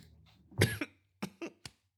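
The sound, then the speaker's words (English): Coughing from someone choking on inhaled coffee: one heavy, drawn-out cough burst, then a few short, sharp coughs in quick succession before quiet. “I inhaled my coffee. I find coffee helps me successfully podcast. Less so when I'm choking on it.”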